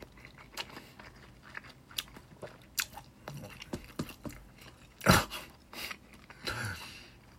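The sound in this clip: Faint crunchy chewing of food while eating a meal with soup: many irregular bites and soft crunches, with one sharper, louder crunch late on.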